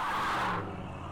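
A car speeds away with a brief broad rushing surge that fades after about half a second, leaving a faint low hum.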